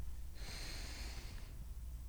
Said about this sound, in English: So I just want us to take three breaths together. So first breath in.